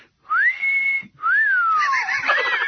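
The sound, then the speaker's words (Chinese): A person whistles two loud phrases alone. The first is a rising note held steady. The second rises, slides downward, then breaks into a fluttering warble. “吹了声口哨”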